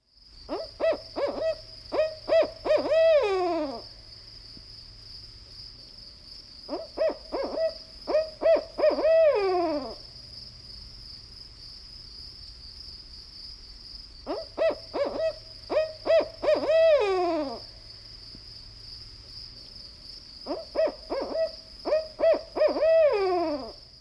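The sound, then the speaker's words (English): A barred owl gives four loud, rhythmic series of hoots, each with about eight or nine notes. Each series ends in a drawn-out call that slides down in pitch, and there are quiet pauses between the series. “Now listen to the barred owl, which calls out a distinctive rhythmic series of 8 or 9 hoots.”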